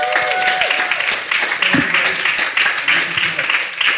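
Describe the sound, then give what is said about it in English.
Applause from a church audience welcoming a guest speaker to a morning service: dense, steady clapping throughout with crowd voices mixed in. “And can we welcome our friend Rodney from Pure Desire? Here he is.”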